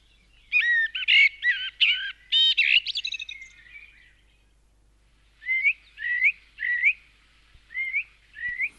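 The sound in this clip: Common blackbird singing, from an archive recording of birdsong: a burst of rich, rapid warbling and fluting notes, a short pause, then a few clear whistled phrases in steady succession, heard alone.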